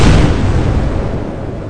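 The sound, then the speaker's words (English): A big boom from explosives planted in a corridor going off, a single loud blast whose rumbling roar fades gradually over under two seconds. “Mr. J ran and we set off the explosives we planted in the corridor earlier. It caused a big boom!”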